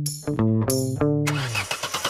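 A car engine struggles to start in cold weather. A few whining cranking attempts give way to a rough, sputtering, rhythmic churn.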